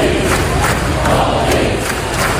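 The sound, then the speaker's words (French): A crowd roars at a night tennis match on court at the US Open, a dense, steady wall of voices that stays loud throughout. “Et là on n'est pas Roland Garros, hein, vous entendez l'ambiance cette nuit sur le court à l'US Open.”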